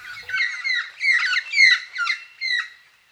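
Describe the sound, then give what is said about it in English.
A magpie calls in five harsh, chattering bursts with a ringing harmonic edge, each under half a second, coming in a steady series before the sound trails off. “If you guessed a magpie, you're right.”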